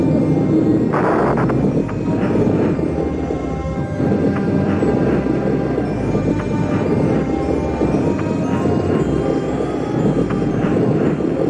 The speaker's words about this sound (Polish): Wahadłowiec wystartował. Challenger idzie w górę. Pełna moc silników.